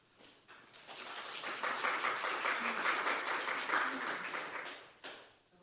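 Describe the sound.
Applause from a forum audience in Los Alamos greets two speakers. It swells quickly to a full, steady round of clapping, holds for several seconds, then tapers off near the end.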